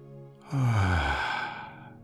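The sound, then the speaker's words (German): A deep exhale during a Kundalini yoga breathing exercise: one long, voiced, sighing breath that starts low and drops in tone, then trails off into a soft, breathy fade. “Dies ist eine Energietechnik aus dem Kundalini-Yoga. Nun ausatmen.”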